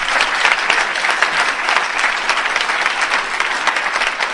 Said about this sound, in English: Welcome to Narcotics Anonymous. If this is your first convention, welcome, welcome, welcome. Give yourself a hand.